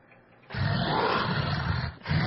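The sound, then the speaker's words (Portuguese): A lion's roar used as a sound effect: a loud, rough, sustained growling roar lasting about one and a half seconds, breaking off briefly before resuming at the end, with no talk. “Não, isso não é pitbull. É só um leão.”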